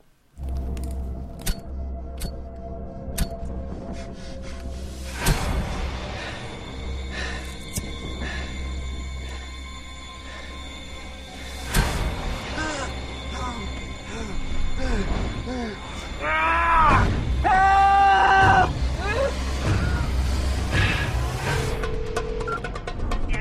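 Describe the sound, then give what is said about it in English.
Soundtrack of the international trailer for the film Buried: sharp percussive hits and low droning rumbles give way to sweeping tonal swells that grow louder and denser in the second half. “All right, so here is the trailer for the international trailer for Buried.”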